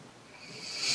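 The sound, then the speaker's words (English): A deep breath drawn in through the nose makes a single soft, airy hiss that swells steadily louder across the whole second. “I invite you to take a deep breath in through your nose,”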